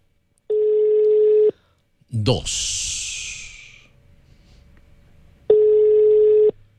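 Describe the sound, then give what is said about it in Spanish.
Telephone ringing on an outgoing call: two steady one-second ringback tones about four seconds apart, with a loud breathy rushing burst between them. “Y se fue la llamada. Ahí está. Primera llamada. Primera marcada. Timbrada.”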